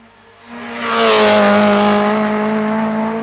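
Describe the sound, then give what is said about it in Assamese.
A car engine roars up as the car speeds away along an empty road. The loud, droning tone swells over the first second, then holds strong and steady to the end. “যা যা উৰাই লৈ যা তোৰ গাড়ী।”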